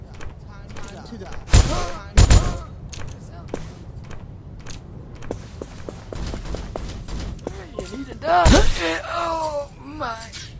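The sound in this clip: Gunfire in a video game: a few sharp, loud shots in separate bursts amid quieter rustling and movement, with people talking throughout.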